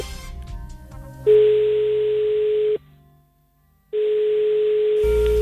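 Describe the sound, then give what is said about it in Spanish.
An outgoing phone call produces a steady, mid-pitched line tone twice. Each hum lasts about a second and a half, with a short silence between them. “ese es el teléfono”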